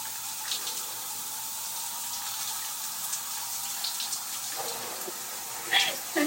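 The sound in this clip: Water runs steadily while people bathe, a continuous soft hiss with a few brief splashing bursts near the end.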